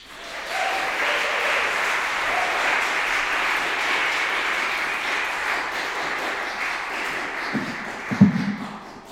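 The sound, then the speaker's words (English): An audience at a poetry event applauds to welcome a poet to the stage, with dense, steady clapping that holds evenly for several seconds, then ends with a few louder knocks and claps. “put your hands together to welcome Kandace Siobhan Walker and her poetry that flows with pristine and private hope to the stage”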